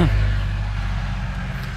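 A Ferguson tractor's engine gives a steady, low, rumbling drone on a farm as a neighbour heads off to fetch round bales. The loudness stays even throughout, with no clear swell of a pass-by.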